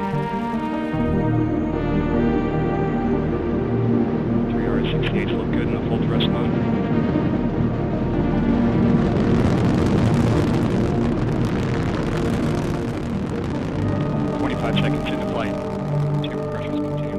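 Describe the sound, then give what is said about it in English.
Rocket launch roar from a Delta IV Heavy lifting off with NASA's Parker Solar Probe. A loud, continuous rumble holds throughout, swelling through the middle, with a voice talking over it. “Liftoff of the mighty Delta IV heavy rocket with NASA's Parker Solar Probe, a daring mission to shed light on the mysteries of our closest star, the Sun.”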